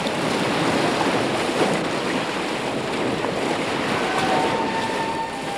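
Ocean surf and wind across a boundless, lifeless flood covering the world: a steady, broad rushing roar that continues without a break.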